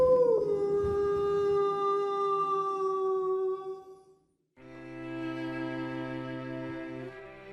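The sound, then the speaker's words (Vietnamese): Village dogs howl at night in long, wavering, sustained tones, two drawn-out stretches split by a short pause, the second fuller as if several dogs join, with no talk. “Đâu đó tiếng chó trong xóm bắt đầu sủa lên, tru lên từng hồi man dại.”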